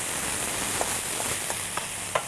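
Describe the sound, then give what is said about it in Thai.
Rice stir-fried with oyster sauce in a pan gives a steady, dense sizzle, with a few faint scraping stirs and small pops now and then. No voices. “แล้วก็น้ำมันหอยผัดให้เข้ากัน”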